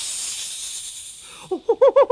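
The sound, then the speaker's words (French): Snakes hissing: a steady, bright hiss lasting about a second and a half, then a few short, loud pitched pulses in quick rhythm. “Il galope entre les serpents qui gardent Tentacula. Autour de lui, les langues fourchues sifflent.”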